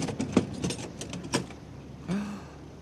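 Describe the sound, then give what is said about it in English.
The lock on a suitcase being worked open gives off a few sharp metallic clicks and rattles, fairly faint, followed by a short scraping movement, with no voices. “Here, let me get at that lock.”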